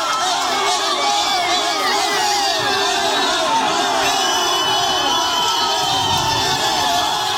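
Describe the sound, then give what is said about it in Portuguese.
Football fans celebrate Neymar's call-up to Brazil's 26-man squad with a continuous, loud roar of cheering and shouting from a large crowd that holds steady throughout. “pode acompanhar o momento da convocação do Neymar, inclusive pouquinho antes, já tem no início de celebração por torcedores. A gente vai subir até o som, porque acho que é autoexplicativo.”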